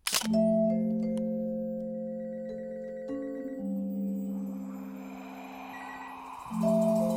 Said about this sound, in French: Benjamin sourit à l'objectif. Un flash.